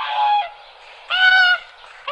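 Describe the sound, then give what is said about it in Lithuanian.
Whooper swan calling in the Nemunas Delta: two drawn-out, nasal honking calls separated by a short pause, followed by a brief, clipped third note at the end. “Gulbė giesmininkė.”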